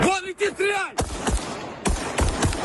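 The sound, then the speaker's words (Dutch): Gunfire from army and police shooting at Iranian kamikaze drones during Russian attacks on Kyiv, Ukraine: after a brief voice, several sharp, loud shots crack out at irregular intervals, each followed by a short rumbling tail. “Leger en politie doen hun best om ze uit de lucht te schieten.”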